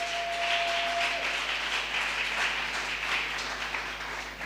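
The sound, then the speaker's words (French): Audience applause at a church service, sustained dense clapping that stays steady throughout, with a held tone sounding briefly at the start. “Gloire, est-ce qu'on peut acclamer très bien, très bien. Merci. Tunaweza kuchapa kofi kwa nguvu.”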